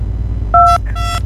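Telephone DTMF dialing tones while a caller is connected: two short dual-tone beeps, the second longer, over a steady low hum.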